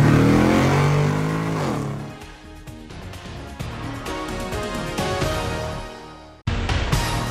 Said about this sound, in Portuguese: engata a primeira e acelera!